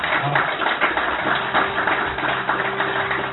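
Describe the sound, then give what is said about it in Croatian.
An audience applauds to welcome invited guests at a public event. The claps are steady and overlapping, with uneven bursts, at moderate loudness. “Ja vas molim da ovu gospodu pozdravite jednim aplauzom.”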